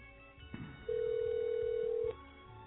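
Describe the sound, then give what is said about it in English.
A single steady electronic telephone tone sounds during a call being dialed through an internet calling service to a call-in line. It holds one even pitch for about a second over a low background hum. “And because it is dialing Blog Talk Radio, and then it says dial 1 to speak to the host.”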